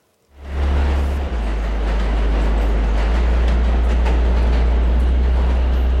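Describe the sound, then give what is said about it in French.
A metro train rushing through a tunnel. The roar swells in abruptly after a moment of near silence, then holds as a loud, heavy rumble with a strong deep hum underneath. “Le bruit des rames qui circulaient à toute allure sous les tunnels”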